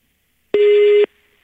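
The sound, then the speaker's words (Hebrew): A single steady electronic telephone tone, like a busy or disconnection signal, as a phone line to a resident of Nahariya cuts off mid-call. The half-second beep is loud and even, with no talk, and is followed by a faint hum. “נותק לנו.”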